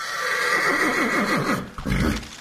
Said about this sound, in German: Genau, statt mit dem Auto ist es für die Gäste plötzlich mit Ross und Wagen weitergegangen.